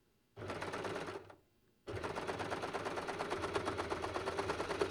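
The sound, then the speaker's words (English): A sewing machine stitches a cuff, its foot control driving two runs of rapid, even needle chatter: a short burst, a brief pause, then a longer steady stretch, all fairly faint. “Sew that with your appropriate seam allowance. Serge it, whatever.”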